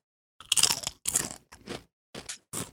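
Crunching bites into a sweet, creamy Japanese chip, five crisp crackling bursts in quick succession, the first two loudest, with short silences between and no talk.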